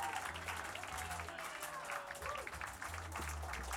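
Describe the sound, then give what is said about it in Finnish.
Audience applause at a live rock festival concert, a dense, steady wash of many hands clapping with a voice speaking over it. “Ville Leinonen, paljon aplodeja.”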